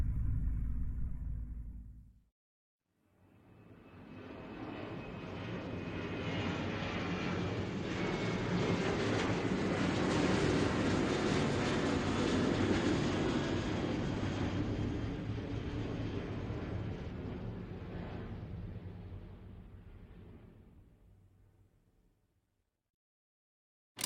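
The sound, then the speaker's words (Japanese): An airplane takes off with a broad, deep roar that swells over a few seconds and holds strongly for about ten seconds. It then gradually fades to silence, after a short tonal sound at the start. “まもなく当機は離陸いたします。”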